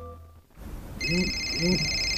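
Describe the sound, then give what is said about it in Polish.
A telephone rings with a call from a medical clinic: a bright, high electronic tone that starts after a brief quiet and repeats in two short pulses. “O, telefon z przychodni. To pewnie nasza teleporada. Kochanie, odbierzesz?”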